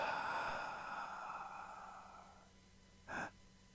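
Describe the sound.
A long, deep inhalation during a guided breathing exercise, a soft airy hiss lasting a couple of seconds that gradually tapers off before a brief, faint burst of sound.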